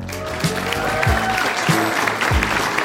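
Audience applause welcoming a guest onto a show: steady clapping runs alongside a regular low thumping beat that recurs about four times.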